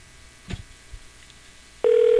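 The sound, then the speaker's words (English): Telephone being dialed: a few soft clicks, then a loud steady tone that cuts in abruptly and holds to the end. “little bit of dialing. Nothing ever wrong with that.”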